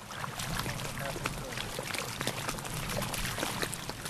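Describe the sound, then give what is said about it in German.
Water laps against the shore of a lagoon in northern Sri Lanka, a steady, fairly loud wash of sloshing and splashing with soft irregular slaps throughout, and no other distinct sounds. “Nur das Wasser schwappt ans Ufer. Ansonsten herrscht Totenstille.”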